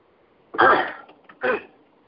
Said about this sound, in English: forgive me of my clearing of my throat